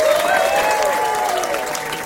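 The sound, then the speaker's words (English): Audience applause rises in a dense, steady wash of clapping, with a faint crowd murmur, welcoming Rod Carter back to New York. “Put your hands together. Welcome back to New York Days, Mr. Rod Carter.”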